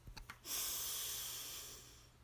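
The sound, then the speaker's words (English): Deep breathing: a few short, soft puffs of air, then one long, steady, airy breath that slowly fades, quiet and unaccompanied. “Breathe in and out.”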